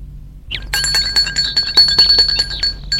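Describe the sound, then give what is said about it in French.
A bell rung at the gate of a white, one-storey lakeside villa: a bright, high, sustained ringing tone with rapid metallic clinks, loud and alone, starting after a brief silence. “sonne au portail.”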